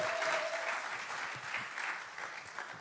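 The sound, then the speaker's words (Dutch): Applause from a church audience welcoming a pastor: steady, dense clapping from many hands, sustained throughout without a clear build or fade, and moderately faint. “Laten we Pastor Monique een geweldig applaus geven.”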